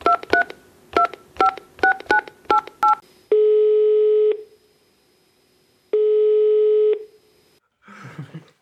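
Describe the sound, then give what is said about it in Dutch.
Touch-tone telephone keypad dialing to place a call: a rapid series of short, bright beeps, followed by two long, steady ringing tones separated by silence, then a brief rustle at the end. “Zullen we hem gaan bellen?”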